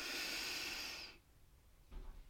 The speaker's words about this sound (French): J'inspire, je gonfle.